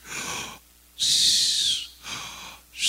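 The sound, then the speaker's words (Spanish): A voice imitates wheezing asthmatic breathing on the exhale: a few raspy, hissing breaths with a whistly high edge, the longest and loudest in the middle, separated by quiet gaps. “Pero a la hora de sacar el aire es cuando hace el ruido. Entonces la respiración es así.”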